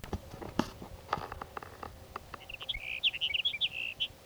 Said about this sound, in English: Your sage sparrow number three for the morning.